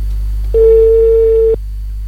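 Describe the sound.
Ringback tone of an outgoing telephone call in Chile: a single steady, mid-pitched beep lasting about one second, loud over a low constant hum, with no talk around it.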